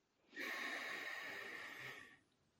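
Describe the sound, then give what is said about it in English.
A deep breath drawn in during a guided calming exercise: one long, airy inhale through the nose that starts abruptly, holds steady for almost two seconds, and then tapers off. “And hold. One, two, three, four. Deep breath in.”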